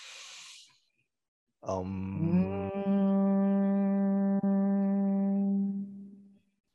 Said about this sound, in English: we're going to close our mouth and just hum when we exhale.